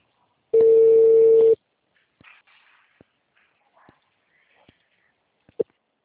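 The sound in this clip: A single steady telephone tone lasts about a second after a dropped call, followed by faint clicks and brief soft rustles on the line.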